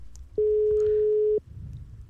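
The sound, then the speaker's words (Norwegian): Ringback tone of an outgoing telephone call: a single steady, low-pitched electronic tone lasting about one second, sounding alone. “Så vi prøver å ringe på neste som har meldt seg på. Følg med på telefonen deres. Om det ringer, så svar.”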